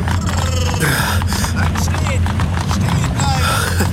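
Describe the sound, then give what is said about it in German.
Hooves of a horse-drawn carriage clatter as it comes to a halt, a busy, irregular clip-clop mixed with rumbling wheels while people talk over it. “Die Kutsche kommt zum Stehen. Halten Sie direkt daneben. Ja. Brrr, ruhig, ruhig, ganz ruhig.”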